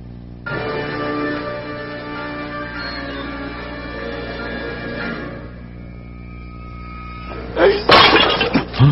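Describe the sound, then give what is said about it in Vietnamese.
A jar of precious wine, hidden away for many years, shatters with a sudden loud crash near the end. Sustained musical tones play underneath the whole time. “Xỉnh rượu quý này của ta cất giấu nhiều năm, người lại làm bể mất của ta.”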